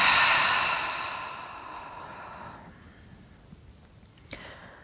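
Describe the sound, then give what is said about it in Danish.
A slow breath drawn in through the nose and let out during a guided relaxation exercise: a soft, airy exhale that starts fairly strong and gradually fades away into near silence. “Der er lige en indånding gennem næsen. Og en udånding.”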